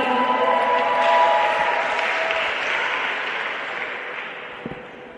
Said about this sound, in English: Put your hands together and give the Lord a shout for a powerful testimony.